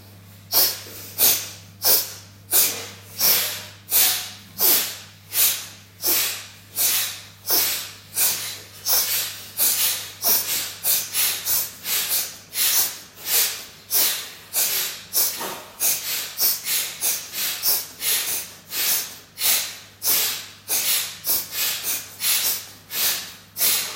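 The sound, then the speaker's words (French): Alternate nostril breathing exercise: a long, steady series of loud, hissing breaths through the nose, each a sharp burst. The rhythm quickens and crowds together in the middle before spacing out again. “Inspire de narine, expire narine alternée.”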